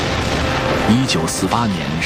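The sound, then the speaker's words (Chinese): Massed artillery thunders as 156 cannons fire a salvo at the east gate of the old walled town of Xinbaoan, a dense continuous roar with no separate blasts, and a voice speaks over it. “1948年12月22日7时，156门大炮向新保安古城东关齐射。”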